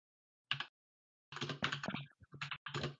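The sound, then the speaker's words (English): Faint typing on a computer keyboard: a short burst of key clicks, then a longer run of many irregular taps. “you were typing in the Discord”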